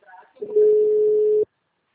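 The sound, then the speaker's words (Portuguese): A telephone call gives its ringing tone: one steady, mid-pitched tone lasting about a second, just after a brief voice. “Eu tô ligando, só tá chamando.”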